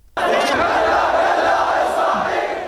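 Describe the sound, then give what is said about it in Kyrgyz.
A loud, dense roar from thousands of protesters gathered in Baghdad's Tahrir Square near the main university, waving Iraqi flags and chanting anti-US slogans. It swells abruptly and holds steady throughout. “Ал Хурия аянтына жана Багдаддын башкы университетинин жанында чогулган миңдеген адамдар Ирактын жиликтерин булгалашып, АКШга каршы уран чакырып жатышты.”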